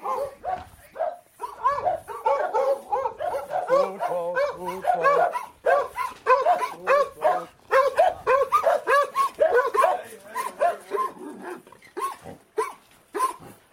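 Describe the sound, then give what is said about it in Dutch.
Dogs bark at a workshop in a long, rapid, irregular run of sharp barks and yips that stays fairly loud throughout. “Moet ik wel even de honden op slot doen?”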